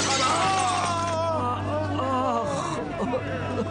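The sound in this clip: A clay water-cooling jar falls and shatters with a bright crack and brittle scatter of fragments, while people talk over and around the breakage.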